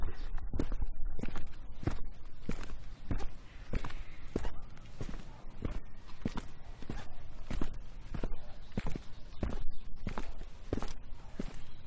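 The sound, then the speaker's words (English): Footsteps walking downhill, a long, steady run of many crisp, evenly paced steps, each a sharp, fairly loud impact over a constant background. “Apologies, you are walking in the wrong direction. Please turn back and walk uphill.”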